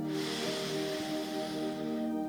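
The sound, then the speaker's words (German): Breath drawn in through the nose during a guided breathing exercise: a steady, airy hiss lasting about two seconds, over a soft sustained tonal background. “Lass uns nochmal atmen. Wir atmen durch die Nase ein”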